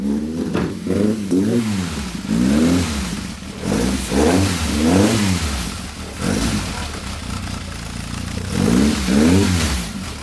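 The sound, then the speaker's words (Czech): Engine of a vintage Škoda 130 RS car revving in several rising and falling bursts, its throaty mid-pitched roar swelling and easing with short gaps between, loud throughout. “My jedeme Škoda 130 RS, zrovna jí startujeme tady.”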